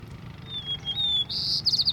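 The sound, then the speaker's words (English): A white-crowned sparrow sings a few thin, high whistled notes, then a quick buzzy trill at the end, fairly faint and alone. “white-crowned sparrow see?”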